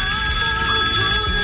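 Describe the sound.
A telephone bell rings for an incoming call to a radio call-in line: a steady, loud metallic ringing with sustained tones that lasts the whole moment without a break.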